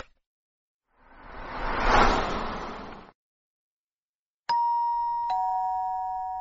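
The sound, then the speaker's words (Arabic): A doorbell rings with two bright, ringing chime strikes about a second apart. Each tone holds and slowly fades, and there are no voices. “قرعنا الجرس ففتحت لنا نجلاء الباب”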